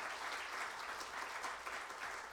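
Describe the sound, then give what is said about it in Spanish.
Congregational applause during a church service, offered to the Lord: sustained, dense clapping from many hands, soft and steady throughout with no voices breaking through. “Y si usted le va a dar un aplauso al Señor, déselo bueno. Que se sienta.”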